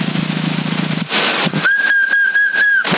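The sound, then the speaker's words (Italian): A person whistles over a CB radio on the 27 MHz band: one steady, high, held tone of about a second, thin and band-limited, following bursts of buzzy radio noise. “Chi stava fischiando?”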